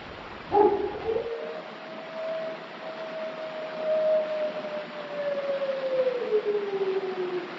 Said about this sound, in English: and as they're walking up the stairs, there's some wolf howls, and he has the iconic line that we'll put here.